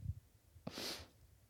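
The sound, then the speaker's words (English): A single sharp, hissy nasal sniff of a man with the sniffles, brief and alone after a soft low thump. “Sorry about the sniffles. I know they're probably annoying.”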